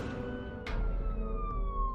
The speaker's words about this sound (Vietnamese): Rồi nghe thấy tiếng còi xe của công an đi vào